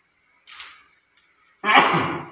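A single sneeze during a religious lecture: a soft, quick intake followed a second later by a loud, breathy burst that fades out, with no talking.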